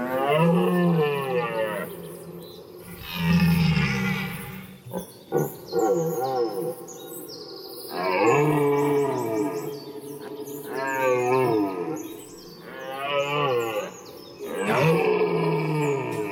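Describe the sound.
Rutting deer stags bellowing in a forest on the Veluwe: repeated long, loud, groaning roars with rough harmonic tones, rising and falling, and short pauses between calls.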